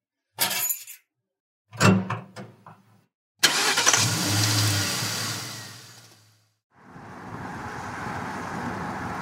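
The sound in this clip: Car sounds on a road trip: a few short clunks, then a loud burst of engine and road noise that fades away, followed by a steady, even hum of driving.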